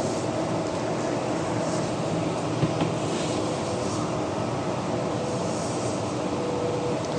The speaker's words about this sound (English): now on one of the double decker buses on line Route 70, which is having departed Fullerton, heading for, well, the Fullerton stop